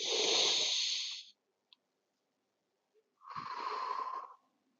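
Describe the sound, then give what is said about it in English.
A slow, deep breath drawn in through the nose during a relaxation exercise, heard as a soft, airy hiss lasting over a second. After a pause, a second long breath follows. Both are faint, with no talk. “Take a deep breath through the nose.”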